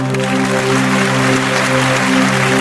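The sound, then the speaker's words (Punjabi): An audience at a stage show claps loudly in a dense, continuous patter over a steady tonal drone. “ਇੱਕ ਵਾਰੀ ਸੱਚਾ ਪਿਆਰ ਕਰਨ ਵਾਲੀਆਂ ਰੂਹਾਂ ਦੇ ਨਾਂ ਤੇ ਤਾੜੀ ਮਾਰ ਦੇ ਜਰਾ।”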